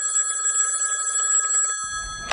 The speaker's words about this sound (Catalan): va rebre una trucada de Maurici, el de los Pallaresos.